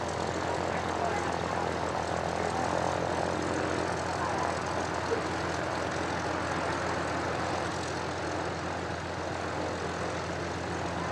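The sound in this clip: A propeller airplane making a low pass at a parade gives a steady, even engine drone with a broad buzzing tone that holds at a fairly constant level throughout.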